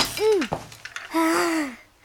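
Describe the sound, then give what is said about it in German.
A toy knight castle being knocked over and broken: a few sharp clattering knocks come between voice-like groaning exclamations, a short arched one at the start and a longer drawn-out one after. “Max hoppelt ins Zimmer seines großen Bruders, mitten durch die Ritterburg.”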